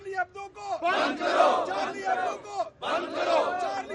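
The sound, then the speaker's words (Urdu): A protest crowd in Pakistan chants slogans against France over a magazine's caricature. Loud massed voices shout rhythmic phrases in two long bursts separated by a short pause. “ان مظاہروں میں France کے خلاف نعرے بازی اور خاکے کی اشاعت پر جریدے کی سخت الفاظ میں مذمت کی گئی۔”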